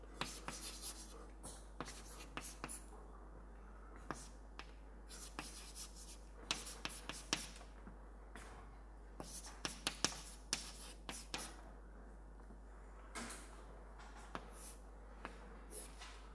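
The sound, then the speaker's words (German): Handwritten strokes are set down while equations are worked out by hand. Many quiet, scratchy strokes and taps come in irregular bursts over a low steady hum, with no talking. “Ich schreibe es einfach mal hin.”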